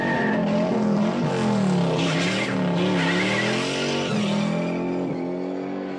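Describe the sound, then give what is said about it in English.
Roaring engine of a 1968 Mustang tearing through San Francisco streets in a movie car chase, loud and continuous with constantly shifting pitch as it revs, while tires skid beneath it. “Steve McQueen careens through the streets of San Francisco behind the wheel of a 68 Mustang. We actually digitized the soundtrack from the Bullet movie”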